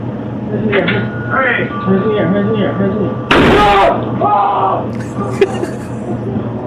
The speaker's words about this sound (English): He's got his shotgun.